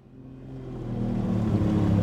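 A motorboat engine drives upriver on murky water, a steady low-pitched droning hum with clear tonal layers that grows gradually louder across the short clip, with no voices.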